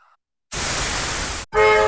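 Train sound for Deutsche Bahn's red car-carrying Sylt Shuttle: a loud rushing hiss lasting about a second stops sharply, then a loud, sustained horn tone sounds after a brief gap.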